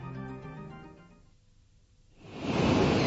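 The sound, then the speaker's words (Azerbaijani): Sea waves on a seashore on a calm day: after a faint, quieter stretch, a broad rushing swell of surf rises and grows loud near the end. “Dostlar, gəlin hamımız birlikdə dəniz sahilində kiçik bir gəzintiyə çıxaq. Necə olmuşdursa, dəniz çox dalğalı deyildir. Amma səhər biraz dalğa var idi.”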